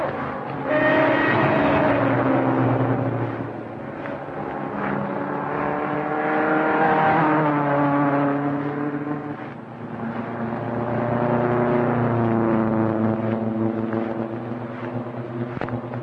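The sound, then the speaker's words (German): Racing car engines on the Nürburgring race track, a droning mesh of harmonic engine tones that swell and ease in waves as cars pass, with no voices. “Nach dem organischen Rhythmus des Blutkreislaufs der mechanische Takt der Motoren des Nürburgrings.”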